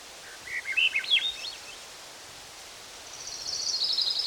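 Faint thrush song in the background: a brief phrase of thin, chirping notes near the start, then a soft, higher hiss over steady low background noise.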